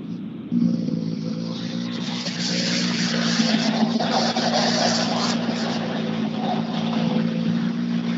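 Engine of a racing vehicle rolling out onto the track at Himmelstalund, a steady droning note that kicks in abruptly near the start and holds a constant pitch throughout.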